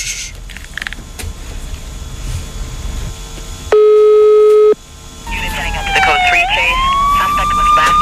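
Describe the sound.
A phone ringback tone sounds on an outgoing call as one steady, pitched burst lasting about a second. It cuts cleanly through murky background noise, and a wavering, sweeping tone follows.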